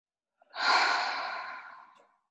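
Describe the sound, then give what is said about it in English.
One deep breath, heard as a soft airy rush that swells quickly and then fades gradually over about a second and a half, alone and with no talk. “Have a big deep breath in your own time. And another one.”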